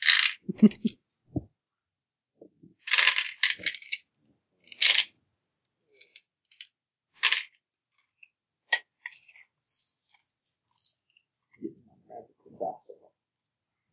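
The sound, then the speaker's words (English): A fork dropped into a bag of dice during a tabletop game, heard as scattered sharp metallic clicks and rattling bursts, some louder clusters among many faint taps spread over several seconds. “Drop my fork in my dice bag.”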